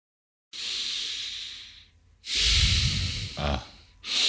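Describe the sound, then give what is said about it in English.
Exaggerated breathing blown straight into a microphone: a long airy hiss, then a louder, rougher breath with low rumble, a brief snort-like burst, and another breath starting at the end. “I was just trying to give a bit of effect in the microphone. So if your breathing sounds like that,”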